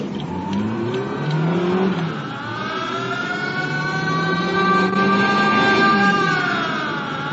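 A car races off fast on an urgent dash to the hospital. A loud, steady engine roar dips in pitch, then climbs and stays high.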